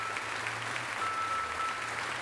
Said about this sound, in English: Give me my crowd. Thank you.